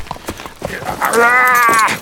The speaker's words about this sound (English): The horse began to limp.